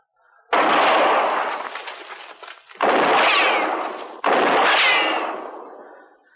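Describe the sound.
Three loud gunshots from a gun fired toward someone hiding in brush, each a sharp blast that rings on in a long rumbling decay, spaced roughly two seconds apart, with no voices.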